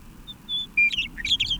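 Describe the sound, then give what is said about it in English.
A bird sings alone, starting with a few thin, high whistled notes and then breaking into a quick run of bright warbling chirps. “This is the same bird with a much more polished sound.”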